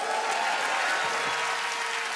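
Audience applause welcoming performers on stage at the Arts and Culture Center: dense, loud, continuous clapping that holds steady throughout without a break.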